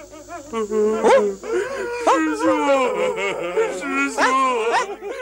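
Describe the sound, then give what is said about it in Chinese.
Monks weeping and wailing in an audio drama, drawn-out wavering cries with sobbing breaks that rise and fall in pitch at a fairly loud level. “悟空，啊，是谁在啼哭啊？”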